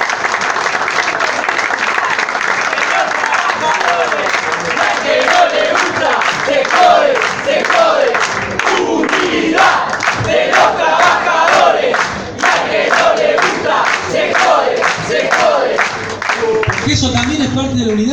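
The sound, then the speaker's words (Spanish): Loud crowd applause and cheering at a political speech, held steady and dense for the whole stretch, with shouting voices mixed into the clapping. “Por eso les pido un fuerte aplauso para Hugo Moyano”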